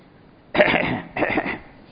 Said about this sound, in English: so he started coughing.